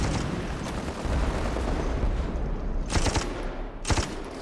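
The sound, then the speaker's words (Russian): Machine-gun bursts fire near an armoured train, cutting through treetops. A couple of sharp, loud bursts rise above a steady, rumbling background of battle noise. “Федоров в бинокль видит, как пулеметная очередь срезает верхушки деревьев возле бронепоезда.”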